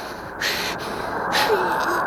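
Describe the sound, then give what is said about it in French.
Wind blows as a loud, breathy whoosh, steady throughout, with a few gusty surges rising and falling. “Oh, il souffle.”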